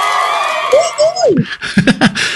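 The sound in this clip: Cheering and whooping voices rise out of a busy crowd background: one long whoop climbs and drops away, then a few short, excited vocal bursts follow.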